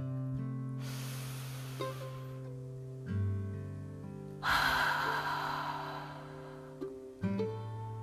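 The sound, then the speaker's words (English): A deep breath taken before a guided reading: two breathy, airy swells, a drawn-in breath and a fuller release, over soft, steady sustained music. “Before we get started, let's all just take a deep breath.”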